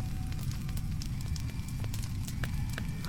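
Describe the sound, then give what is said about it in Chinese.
Fire burning and crackling in a room engulfed in flames, a dense continuous roar scattered with many sharp crackles and pops, no voices. “几个被烧成了焦炭的人影在火里惨叫着。我似乎听到了烈焰燃烧皮肤的吱吱声”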